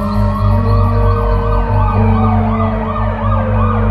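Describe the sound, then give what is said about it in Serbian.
Police and ambulance sirens wail together, responding to an emergency call about an injured girl lying on grass. Several loud, overlapping tones sweep up and down continuously over a low vehicle rumble, with no talk. “Dolaze policija i hitna. Vidim ih.”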